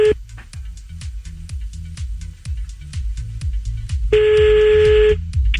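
Telephone tone while calling someone back: one steady, buzzy tone lasting about a second near the end, with a brief tone at the very start, over a rhythmic thumping music bed.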